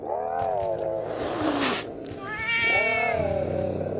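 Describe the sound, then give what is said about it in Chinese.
Feral cats in an overgrown, weedy courtyard yowl in drawn-out, wavering meows. Two long caterwauling calls are split by a short, harsh, noisy burst. “几只野猫在草丛里撅着屁股，也不知道在争抢着什么。听到门响，惊得各自喵呜一声”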